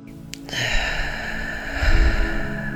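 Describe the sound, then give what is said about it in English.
One long, deep breath drawn in and released at the close of a guided healing meditation, a soft, continuous rush of air that swells slightly toward the end. “taking another deep breath in”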